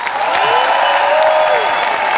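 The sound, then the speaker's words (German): Dense applause for the band at a concert, a steady, loud wash of clapping that holds at an even level throughout, with a sustained tone beneath it. “So, und jetzt nochmal, wenn ihr schon dabei seid, dann jetzt noch einen Riesenapplaus an meine Band.”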